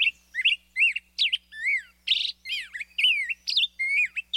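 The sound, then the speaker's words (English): Lively song of a black-headed grosbeak, the kind heard in streamside woods in summer: many short, rollicking phrases of whistled notes that slide up and down, delivered at a brisk tempo with brief gaps between them, with no other sounds. “And now, the up-tempo performance of the black-headed grosbeak.”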